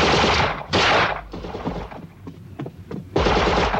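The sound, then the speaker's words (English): Gunfire from guards shooting at a man trying to escape: heavy bursts of loud, sharp shots at the start and end, with scattered single cracks in between and no voices. “But when more guards fire at him, he turns away.”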